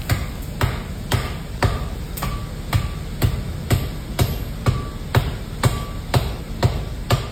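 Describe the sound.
Blacksmith hammering metal while forging a tushker: steady, evenly spaced ringing hammer blows, about two per second, each a sharp loud strike with a brief metallic ring, over a continuous low hum and no talk.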